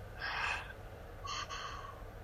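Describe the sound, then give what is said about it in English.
A deep inhale followed by an exhale, guided breathing at the close of a workshop. Two soft, airy breath sounds, the first fuller and the second longer and trailing, with no talk. “Nice deep inhale. Exhale.”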